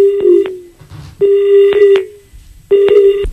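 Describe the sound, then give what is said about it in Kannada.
The disconnect tone of a telephone call that has been cut off: three loud, steady electronic beeps with a slight downward tail, separated by short gaps. “Sir, ಈ ಕರೆ ಕಡಿತ ಆಯ್ತು sir.”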